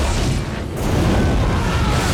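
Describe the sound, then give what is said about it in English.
Shells from a patrol boat gunner pound the shore and tear through a boat canopy, producing a dense, continuous roar of blasts and crashing debris that dips briefly early on, then stays loud throughout. “The gunner on the boat starts firing at the shore. The shells obliterate the canopy on Rambo's boat.”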